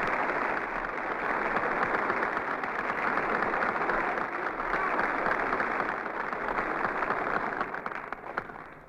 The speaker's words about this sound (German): Applaus